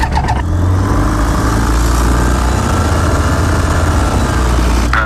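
A light aircraft engine starts up with a brief burst, then settles into a loud, steady, buzzing drone that continues to the end with no talk.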